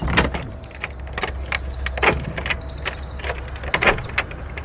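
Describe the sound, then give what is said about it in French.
An old Gascon door lock being opened, giving a series of sharp mechanical clicks, clunks and scraping rattles at an uneven rhythm over a low steady hum. “C'est une vraie serrure gasconne, il faut ouvrir à l'envers.”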